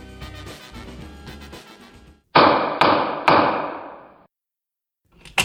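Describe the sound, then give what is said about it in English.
A gavel strikes three times in quick succession, each a sharp, loud wooden knock that rings briefly and fades, after a stretch of music. “so this is the sound of a gavel.”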